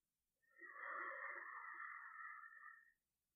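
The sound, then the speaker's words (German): A long exhale through the mouth during a guided breathing exercise, a soft, airy rush of breath that swells in and holds steady for about two and a half seconds, then fades out, quiet and alone. “Und lange durch den Mund aus.”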